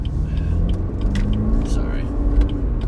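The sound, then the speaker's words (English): A car engine roars and rumbles as the driver accelerates to get onto a highway. The low, steady, throaty drone holds throughout. “Oh, you hear that car? You hear my car just ripping and roaring?”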